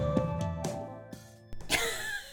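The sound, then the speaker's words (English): A deep breath taken as a pause: a breathy rush of air swells near the end, after a few soft clicks and hums. “That was me taking a pregnant pause. That was a deep breath.”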